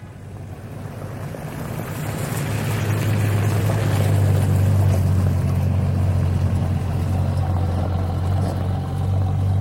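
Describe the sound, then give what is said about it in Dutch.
Four large Wehrmacht army trucks drive along the Apollolaan. A deep, steady engine rumble with a strong low hum swells over the first few seconds, then holds loud and unbroken, with no voices. “Vier grote legertrucks van de Weermacht rijden over de Apollolaan.”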